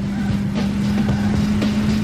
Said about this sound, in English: Racing sound, so nothing crazy happens here.